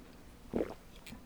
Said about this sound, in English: And as you're turning, I'm going to take a sip of water.